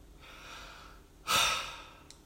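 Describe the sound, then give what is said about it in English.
One deep breath: a long, soft stretch of airflow followed by a stronger, breathy rush that fades out quickly. “we can just take a deep breath”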